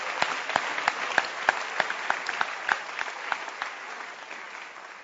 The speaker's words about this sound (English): you can clap your hands if you want to clap.